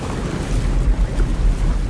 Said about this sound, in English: Chuck and Wilson set out from the island, the surf crashing over them, waiting for the right moment to raise the sail.